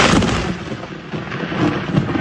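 Thunder from a lightning strike during an outdoor wedding rolls as a loud, continuous low rumble that swells and eases slightly without letting up.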